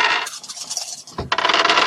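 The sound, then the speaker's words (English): Five dice clattering as they are rolled for a tabletop game. A loud, bright rattle breaks off briefly around a dull knock, then a second dense burst of tumbling follows. “Just roll some dice.”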